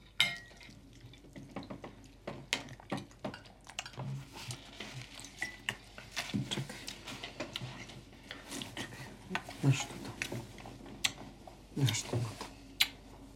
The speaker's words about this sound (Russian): Вкусный суп. Давай, ешь нормально. Возьми ложку в руку.